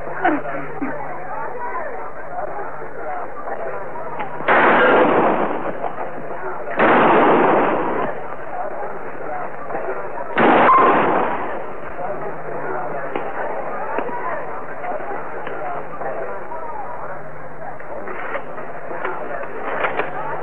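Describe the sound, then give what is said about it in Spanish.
Gunshots ring out in a western comedy film shootout. Three loud, sharp blasts are spaced a few seconds apart over a continuous busy background. “Buen disparo, forastero.”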